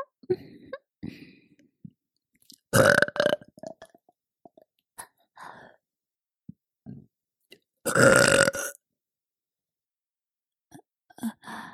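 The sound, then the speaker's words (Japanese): Burping by a woman: two long, loud belches stand out among several softer gulps, swallows and breathy sounds, separated by stretches of silence. “いいわよ。もっと聞かせてあげる。ママゲップ、たっぷり味わってね。”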